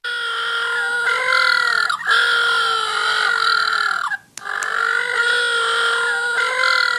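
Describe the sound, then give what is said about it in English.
Little blue penguins call in loud, braying, harmonic cries that run almost nonstop, broken once by a brief silence near the middle before the calling resumes. “Now, if you're wondering what that is the sound of little blue penguins.”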